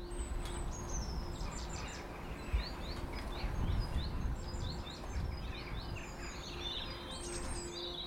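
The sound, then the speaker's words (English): Birds singing in a garden: many bright chirps, trills and warbling phrases overlap continuously at a moderate level, with a steady low hum underneath throughout. “for the past few minutes, I've just been sat in my garden listening to the birds singing. Listen.”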